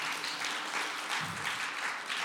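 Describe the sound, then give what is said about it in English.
A church audience applauds with a soft, steady patter of many hands clapping at an even, fairly quiet level from start to finish. “we would not be the church without you wonderful people, so give yourself a round of applause there, okay?”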